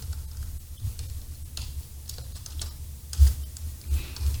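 Typing on a computer keyboard, with faint, irregular key clicks scattered over a steady low hum and no talking.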